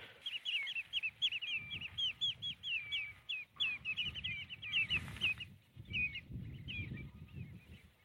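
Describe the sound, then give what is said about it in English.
Redshanks, small long-legged wading birds, call across salt-marsh lagoons in many rapid, high piping notes that come in bursts with short gaps. A low, rumbling noise runs beneath the calls. “Those are redshanks calling. There are a whole load of redshanks here.”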